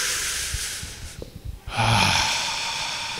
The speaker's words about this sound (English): can we all maybe take a deep breath in together?